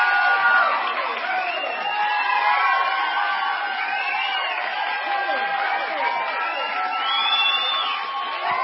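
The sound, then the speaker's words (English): A live studio audience cheering, a dense, steady roar of whoops, shouts and whistle-like high voices running continuously at full loudness. “I say to you, even our audience, our live studio audience back in Minnesota is pretty excited.”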